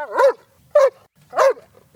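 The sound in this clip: Short vocal sounds from a dog at a house's front door: four pitched bursts with bending tone, evenly spaced with quiet gaps between them and no other sounds.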